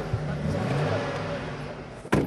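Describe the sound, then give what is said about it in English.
The engine of a rented moving truck loaded with sedum rolls runs as a low, fairly quiet rumble, partly under talk, with a sudden louder burst near the end. “fire up a rented moving truck full of sedum rolls”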